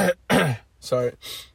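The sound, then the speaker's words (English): A person clears their throat in several short, rough, rasping bursts separated by brief pauses, moderately loud and with no other sound around them. “Trying to clear my throat and everything.”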